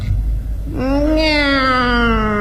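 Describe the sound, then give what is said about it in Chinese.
A single long, drawn-out meow voiced in imitation of a lazy cat. It rises slightly, then sags slowly in pitch over a steady low background hum. “喵。 哦，这还是个懒猫。”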